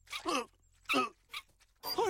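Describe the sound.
Small dog yips and whimpers in a dubbed animated film scene: a few short, high, harmonic cries with wavering pitch, separated by brief pauses, fairly loud and with no talk over them.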